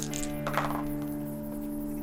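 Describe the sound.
Dice rolled in a tabletop roleplaying game, including ten-sided and six-sided dice: a quick burst of light clicks and clinks early on, then a steady background hum.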